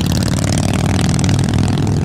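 Loud, continuous engine roar of a custom motorcycle built with Mean Machine Cycles parts and custom paint, revving with a rough, clattery edge that holds steady throughout.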